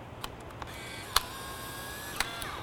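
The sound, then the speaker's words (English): A Polaroid instant camera snaps a selfie, giving two sharp shutter clicks a second apart, with a few softer ticks around them and no talk. “In fact, I'm gonna snap a little selfie here right now.”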